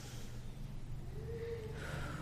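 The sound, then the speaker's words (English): People at a church gathering take a big deep breath together. The breathing is faint and airy, a soft, drawn-out inhale and exhale with no voices over it. “Do another big deep breath.”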